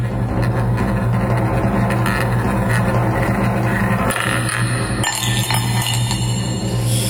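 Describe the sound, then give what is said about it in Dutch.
A prize roulette wheel being spun, giving a loud, fast, continuous run of rattling clicks and glassy clinks over a steady low hum, with no voices. “geef een slinger aan dat Request Roulette-wiel. En dan gaan we gewoon een poging wagen.”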